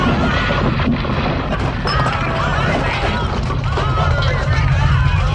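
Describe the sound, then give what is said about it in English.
A film sound effect from a 1974 disaster movie of Hollywood buildings crumbling in an earthquake: a loud, continuous roar of rumbling, crashing and smashing debris, with voices mixed in. “That's the sound of the Capitol Records and other Hollywood buildings crumbling in the 1974 movie Earthquake.”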